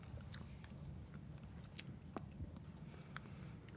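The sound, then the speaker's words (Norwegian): Someone chews roasted pine bark, with faint, scattered crunchy bites and quiet chewing over a low background rumble. “Nå spiser jeg altså rista furubark.”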